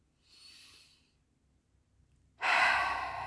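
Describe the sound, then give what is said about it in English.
A deep breath: a soft, airy inhale, a pause, then a much louder, longer rushing exhale that slowly fades, with no talking. “let me take a deep breath. Please take one with me.”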